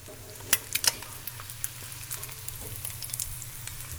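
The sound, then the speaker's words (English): Eggs fry in a super hot cast iron skillet greased with ghee, giving a steady sizzle scattered with sharp crackling pops, most pronounced in the first second, then a softer, busy spitting. “you cook it all in a super hot cast iron skillet that's greased with some ghee”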